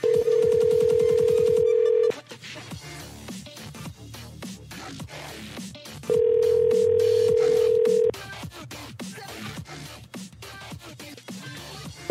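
An outgoing telephone call rings: two long, steady rings about four seconds apart, with the start of a third at the end, and other sound filling the gaps between them.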